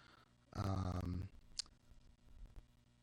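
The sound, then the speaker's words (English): Mouse clicks select a verse in a Bible study app: a couple of sharp, short clicks stand out clearly against a quiet background. “And so if I click on that verse, we see the word for sign.”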